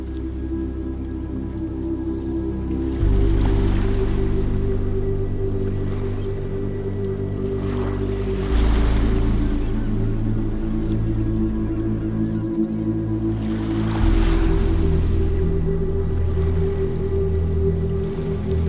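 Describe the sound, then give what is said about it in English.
Ocean waves washing in and out beneath slow, relaxing music. Three soft swells rise and fade over a steady sustained drone, with no voices. “And you will notice the waves coming in and out.”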